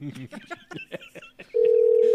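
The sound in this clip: A telephone tone sounds while a call is placed to a newspaper's editor-in-chief: a steady, loud, unbroken tone starts abruptly after a stretch of talk and holds to the end.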